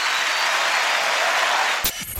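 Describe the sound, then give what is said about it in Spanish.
Applause for a guitarist: a steady, dense wash of clapping lasts nearly two seconds, then breaks off abruptly. “Un aplauso para el más grande guitarrista.”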